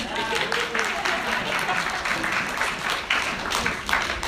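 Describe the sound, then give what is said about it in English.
Applause rises from an audience at a church gathering, a dense, steady patter of clapping that lasts the whole clip, with voices heard over it. “Give me a hand.”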